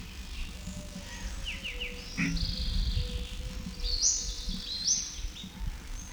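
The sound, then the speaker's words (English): Several birds call, giving short descending chirps and brighter whistled notes that come in a few quick runs over a low, rumbling background. “There's still several birds present. These notes are indistinguishable.”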